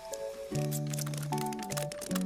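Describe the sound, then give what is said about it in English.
Instrumental music made from office supplies, with scissors, staplers, scotch tape and a shredder as instruments: sustained tonal notes shifting in pitch, layered with crisp crinkly clicks and snips throughout. “Oh, here's the instrumental part with like the scissors and the staplers and the, like scotch tape. Oh, there's a shredder.”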